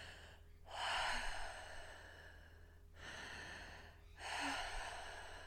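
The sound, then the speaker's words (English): Connected breathing in and out through the mouth: continuous airy breaths flow into one another without pause, alternating louder and softer phases. The breathing is faint and steady, with no talk. “So basically I just used the breath, a connected breath in and out of my mouth. So it sounds a bit like this.”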